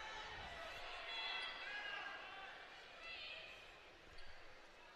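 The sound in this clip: Faint bounces of a basketball being dribbled on the court during a women's college game against Seattle University, a few soft thuds under a steady murmur of crowd noise.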